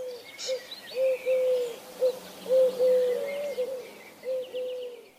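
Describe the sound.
A courting male pigeon, wings spread and dragging on the ground as it circles a female, gives soft, low throaty coos in short repeated phrases with brief gaps, faint against a quiet background.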